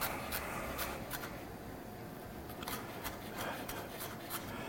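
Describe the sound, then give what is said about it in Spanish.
Chef's knife slicing through food, a series of steady rasping cuts with crisp strokes repeating through the whole passage at a moderate, even level. “El cuchillo cebollero. Qué gran invento.”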